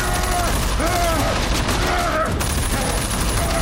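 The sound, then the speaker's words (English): Rifle gunfire as a wounded shooter moves through a house, many shots in rapid, overlapping bursts forming a loud, continuous barrage. “Robert follows, shooting, as he hobbles from room to room.”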